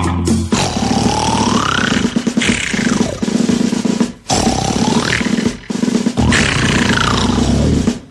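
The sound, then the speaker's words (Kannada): A tiger roars in an audio story, giving several long, loud, deep roars that swell and trail off, separated by brief pauses. “ಗರ್ಜನೆ ಮಾಡ್ತಾ ಹೆಜ್ಜೆ ಹಾಕ್ತಾ ಹೊರಟ ಹುಲಿರಾಯ.”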